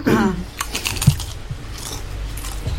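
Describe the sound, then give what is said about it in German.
Smacking, crunchy chewing of food while eating, a string of faint, irregular clicks and crackles with no talking over them. “Ein graziles Schmatzen.”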